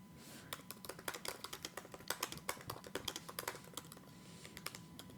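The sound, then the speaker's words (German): Typing a Google search on a computer keyboard: many rapid, uneven keystrokes clatter in quick bursts with brief pauses, fairly faint and without voices. “Wie sagt man denn das? Wie würde ich das denn googeln?”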